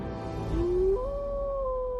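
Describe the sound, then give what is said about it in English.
A wolf howls in the distance: one long tonal howl that climbs, steps up in pitch, then holds steady over a low background rumble. “off in the distance, you hear a wolf howl.”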